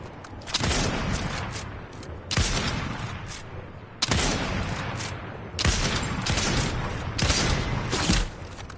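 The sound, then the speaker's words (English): Gunfire in a video game: about five sustained bursts of rapid, loud, rattling shots, each lasting over a second, separated by brief quieter gaps. “I'm getting crossfire from the south to our right.”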